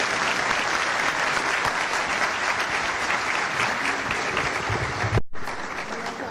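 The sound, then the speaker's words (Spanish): Audience applause fills a university convention hall at an economists' day celebration: steady, dense clapping from many hands that holds level, drops out for a brief moment near the end, then resumes. “Gracias a nuestros estudiantes podemos también agasajarles. Un aplauso para el”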